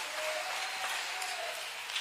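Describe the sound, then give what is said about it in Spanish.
Applause from an audience at a church service, a steady, dense wash of clapping at a fairly soft level that holds evenly for its whole length without talk. “Le damos un aplauso a Él.”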